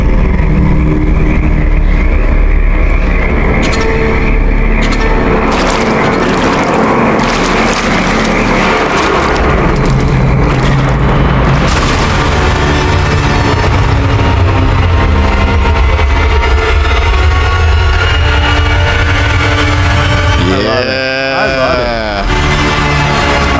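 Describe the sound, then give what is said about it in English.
Audio from an official TV series teaser trailer plays loud and dense throughout, with continuous rumbling, engine-like noise under layered effects at a steady high level. “Swamp Thing official teaser trailer.”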